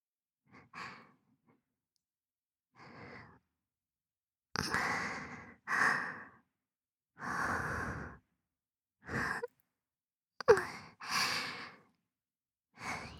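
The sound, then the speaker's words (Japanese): Heavy breathing: a series of slow, breathy exhales and sighs separated by short silences, some soft and drawn out, others louder and sharper. “私の呼吸、荒いでしょ。”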